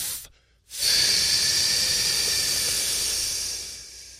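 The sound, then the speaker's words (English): Breathing during a vocal warm-up exercise, with a short quiet pause followed by one long, steady, hissy exhalation that holds loud for several seconds and then tapers off. “And breathe in. And then you're going to breathe out and drop it down while going.”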